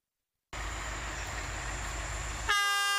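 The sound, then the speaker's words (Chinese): A passenger train runs on its rails with a steady, loud, broad rumbling roar. Near the end a bright, multi-toned train horn blasts over the noise. “刘耕令忙碌到除夕这一天，终于踏上返回北京的列车。这一夜，连同他在内，火车上只有3位乘客”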